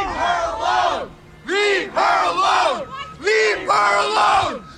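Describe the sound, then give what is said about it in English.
Crowd of protesters shouting in reaction to a woman's arrest. Many voices chant the same short phrase in unison three times, as loud, rhythmic bursts separated by brief pauses. “This is the sound of the crowd reacting to her arrest.”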